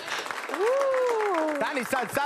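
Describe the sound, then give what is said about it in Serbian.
Tavern patrons clap for people gathered outside the kafana, a scattered run of claps beneath a loud, drawn-out voice. “Dajte jedan aplauz za ove što su vani.”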